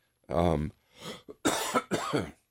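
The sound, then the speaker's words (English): A coughing spell: a person gives several harsh coughs in quick, uneven succession, some raspy and some voiced. “I'm getting into a coughing spell here.”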